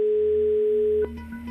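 A telephone dial tone heard while placing a call, a steady single-pitched hum that cuts off with a click about a second in, followed by quieter line noise.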